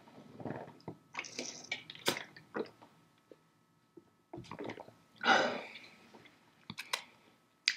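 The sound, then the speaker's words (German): A quick breath and a sip of a drink come through as faint, scattered mouth sounds, soft wet clicks, squishes and swallowing noises in short bursts with quiet gaps between them and no speech. “Also jetzt nicht inhaltlich, sondern einfach nur kurz Luft holen, kurz einen Schluck trinken.”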